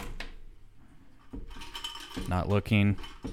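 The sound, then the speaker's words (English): A gumball machine being worked to pull out a ball: a few metallic clicks and a ratcheting rattle, then a person starts talking. “For the Curtis segment, I am reaching into the gumball machine to see what I pull.”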